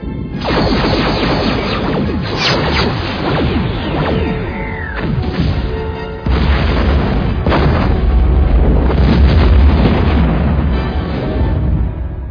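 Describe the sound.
Quantum torpedoes fired from a starship at a planet's surface, with loud whooshing launches and booming explosions layered into a dense, continuous roar; a falling whistle sounds near the middle, then a deeper rumbling swell fills the second half.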